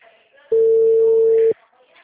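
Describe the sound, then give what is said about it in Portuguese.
A telephone line tone sounds for a call to a busy number that is being diverted to voicemail. One steady, single-pitched beep lasts about a second against faint background noise. “Sua chamada está sendo encaminhada para a caixa postal. O número está ocupado.”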